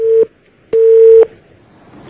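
Telephone line tone as a caller's call connects: a short steady beep, a brief pause, then a longer steady beep of the same pitch, followed by quiet hiss.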